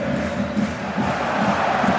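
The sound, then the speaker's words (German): Crowd cheering fills a football stadium during a relegation-battle match, a dense and steady roar with no sharp peaks, holding at an even loudness throughout. “Und ein Jubel geht hier durchs Stadion.”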